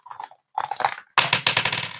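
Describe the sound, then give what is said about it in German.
Dice rattle and tumble during a game, in three short bursts of dry clicking. The last burst is louder and denser than the first two. “Dann würfel ich jetzt für Alex”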